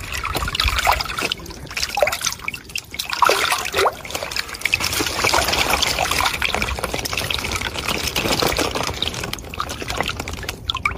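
Small crucian carp and tench drop into a pond, making a continuous wash of trickling, splashing water. Many small plops and dribbles overlap at a fairly steady level throughout.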